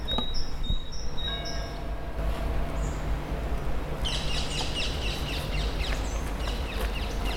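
Birds sing in a botanical garden in spring. Faint, high chirps and short trills come in small clusters over a soft outdoor hiss, with a denser run of rapid chirping in the second half.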